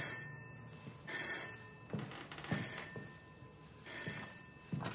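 A telephone bell rings in repeated bursts of bright, rattling trill separated by short pauses, fairly quiet throughout with no voices.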